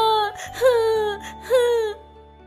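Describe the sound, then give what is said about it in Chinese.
A voice imitates a little rabbit crying: two whimpering, wailing sobs with a bending pitch, loud and alone. “小兔子哭了起来。”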